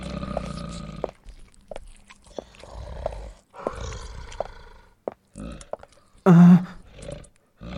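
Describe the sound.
Bears roar and growl from beneath a trapdoor in the floor, deep rough bursts broken by short pauses, with the loudest roar coming near the end.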